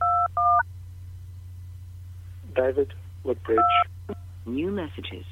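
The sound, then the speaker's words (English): Telephone keypad DTMF tones entering a voicemail password on an Audix system. Two short beeps come first, then a voice speaks and a third tone sounds over it. “Welcome to Audix. For help, enter password and hash.”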